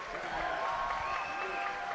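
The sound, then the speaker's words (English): A Merlefest festival crowd applauds after a string band's set. The clapping is a steady, even wash that stays at a constant level throughout. “Come on, let them know about it. That was great. That's a Merlefest crowd.”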